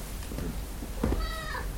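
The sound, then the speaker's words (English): A cat meows once, a drawn-out, moderately loud call with a clear tonal quality, following a few softer rustling sounds. “Shut up, cat.”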